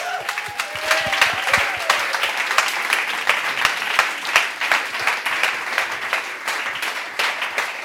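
Warm welcome applause fills an evening stage event as a pastor is invited onto the stage. Dense, steady clapping from a crowd continues without a break at an even level throughout.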